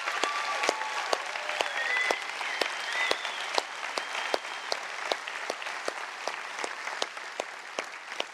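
A church audience applauds to welcome a second campus joining the Sunday service. The clapping is steady and sustained throughout, with sharp individual claps standing out from the dense wash of hands.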